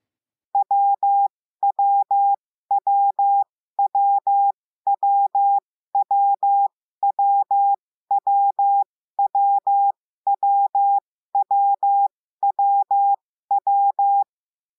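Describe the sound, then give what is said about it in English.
Morse code letter W sounds as a steady mid-pitched beeping tone in a dit-dah-dah pattern, repeated more than a dozen times with short silent gaps between each letter. “is dit-da-da, dit-da-da. Here is the audio version of what that sounds like.”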